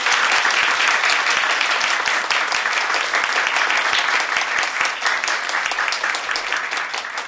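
Applause from a concert audience for a band after their performance: loud, dense, overlapping clapping that stays steady throughout and eases slightly toward the end.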